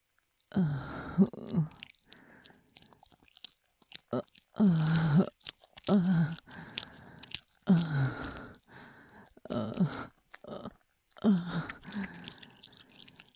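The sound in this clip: Fingers squish inside an ear-shaped microphone, making a series of moist, squelching bursts that recur about every second or two, separated by short quiet gaps.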